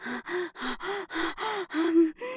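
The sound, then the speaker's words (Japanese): Heavy, forceful exhalations during exercise, meant to warm the body, come as a steady run of about eight voiced outward breaths, each a short breathy rush with a low hum. The last breath is cut off. “大きめに息吐いてるの。”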